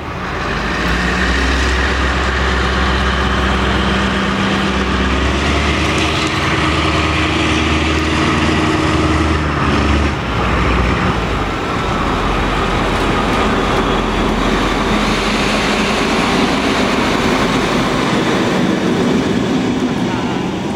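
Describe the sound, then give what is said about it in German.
Diesel locomotive of the V160 class with a Maybach engine, passing while running alone: a loud, continuous deep engine rumble mixed with rolling rail noise that stays heavy for about twenty seconds. “wie sie an meinem Mikrofon einzeln vorbeigefahren ist und ich finde gerade in dieser Aufnahme ist der Klang des Maybach-Motors zu hören.”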